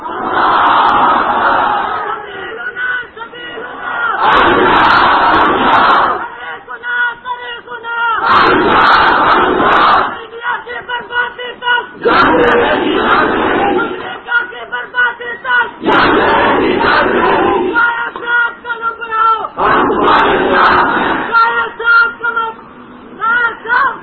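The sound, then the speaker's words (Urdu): A crowd at a religious gathering in Shorkot loudly chants a religious slogan in a few forceful, massed bursts. Short quieter gaps separate the bursts in a repeating call-and-response rhythm. “نام شور کوٹ ہے اور نعرہ بغیر شور کے لگاتے ہیں، اللہ کا نام تو اونچا بلند کیا کرو”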